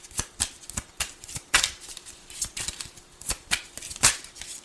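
Tarot cards being shuffled and drawn, a quick series of many sharp, papery riffles and slaps in an irregular rhythm, crisp and fairly loud.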